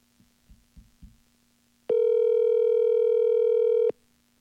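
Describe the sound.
An outgoing telephone call rings out. A few soft taps come first, then one loud, steady ringback tone lasts about two seconds before cutting to silence.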